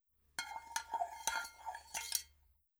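Egg and milk being whisked in a green bowl, heard as quiet, irregular clinks and scrapes of the whisk against the bowl over about two seconds.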